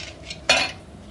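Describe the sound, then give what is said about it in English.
Forks, knives and spoons clatter together while coffee is being made: one short, loud metallic burst that rings briefly and quickly dies away, with no talking. “You don't need forks and knives and 2 spoons. Well, don't I need a spoon to stir?”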